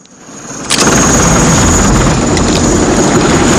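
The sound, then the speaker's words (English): A helicopter gunship approaching at night: a low engine hum swells, then jumps suddenly to a loud, steady roar of engine and rotor noise that holds to the end. “A huge helicopter gunship appears out of the night sky up ahead.”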